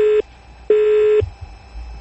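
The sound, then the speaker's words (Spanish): Telephone busy tone after a call drops: a steady mid-pitched beep in two bursts, the first cut short at the start, separated by a brief gap, then low rumbling background with no voices. “Se cortó la llamada, es la senadora Clara López Obregón”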